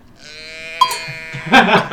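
A person imitating a bleating sheep as a Foley effect: a drawn-out, wavering nasal bleat that swells, then a louder, rougher burst of bleating near the end.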